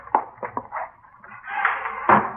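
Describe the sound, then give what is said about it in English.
A door is being opened: a few sharp latch clicks come first, then a short rush of movement and one final click. “Wait a minute. I'll get the door.”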